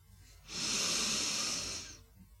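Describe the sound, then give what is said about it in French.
A deep inhalation through the nose during an energising breathing exercise, filling the upper lungs: one long, steady, airy hiss lasting about one and a half seconds, soft and alone. “Maintenant, prenez une grande inspiration par le nez, en remplissant aussi le haut des poumons.”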